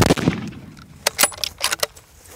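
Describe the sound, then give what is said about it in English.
A gunshot fired at an animal during a hunt: a sharp, loud report opens, followed by a few fainter, brief cracking and clattering bursts. No one speaks. “Again, second shot doesn't kill it.”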